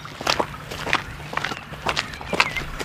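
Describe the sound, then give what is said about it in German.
Footsteps of two pilgrims walking on together along a road: many light, irregular steps overlapping in an uneven rhythm, at moderate loudness with no talking. “Fröhlich gehen unsere beiden Pilger miteinander weiter.”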